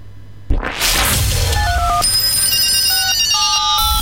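A telephone rings, starting abruptly after a brief quiet moment, then holding a loud, steady ring with bright electronic tones that step between pitches.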